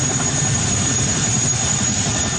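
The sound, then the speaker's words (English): A National Guard helicopter delivering troops and supplies to Hawaii ahead of a hurricane gives a loud, steady, unbroken engine drone with a low throbbing rumble that holds evenly from start to finish. “A National Guard helicopter is delivering troops and supplies to the region.”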